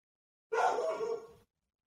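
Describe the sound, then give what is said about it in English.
A dog gets excited by someone outside and lets out a single rough, drawn-out bark lasting about a second, alone with no talk. “dogs are going crazy.”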